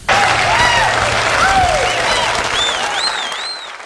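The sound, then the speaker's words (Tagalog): Loud, sustained applause fills the whole stretch, dense and steady, with a few scattered whoops from the crowd riding on top. “Marami po tayong pag-uusapan ngayon, kaya dapat ay palakpakan muna.”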